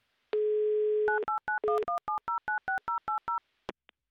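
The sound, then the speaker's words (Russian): A phone dial tone holds steady, then gives way to a quick run of many short touch-tone beeps as a call to Saint Petersburg is dialled. Two faint clicks follow, with no voices. “давайте звоните в Санкт-Петербург”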